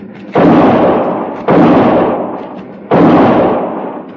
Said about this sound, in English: The bullet struck a log beside my arm. I felt a splinter tear my cheek, and I fired back.